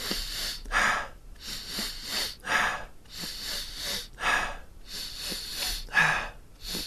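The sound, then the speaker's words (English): Big, deep breaths drawn in, repeated many times in a steady rhythm. Each intake is a loud, rushing, airy burst with short quiet gaps between them. “So, you're taking like really nice big breaths in.”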